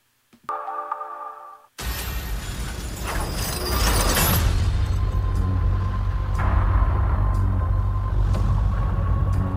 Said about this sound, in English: So I want to share this trailer. This is Thor Ragnarok and their trailer, the trailer for it.